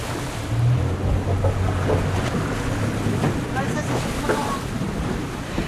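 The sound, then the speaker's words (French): Wind and water ambience aboard a boat moored at a quay in the harbour of Île de Sein, off the tip of Brittany. A steady, rushing wash carries a low droning hum. “Alors là, on est dans le port de l'île de Sein. On est à quai, à bord du bateau.”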